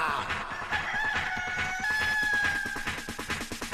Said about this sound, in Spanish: ¡Que llegó gallo que manda!